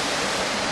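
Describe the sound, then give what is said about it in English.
Steady rushing splash of water jets from an outdoor fountain outside a town hall, a continuous loud hiss of falling water that holds level throughout without any break. “that noise you can hear in the background is the fountain here”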